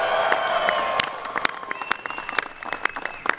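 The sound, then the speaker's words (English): An audience at the White House cheers and applauds the world champion Cleveland Cavaliers, with loud dense clapping, shrill whistles and shouts that stay strong at first and then thin into scattered claps. “Welcome to the White House, and give it up for the world champion, Cleveland Cavaliers.”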